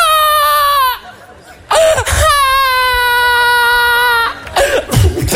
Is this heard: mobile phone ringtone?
no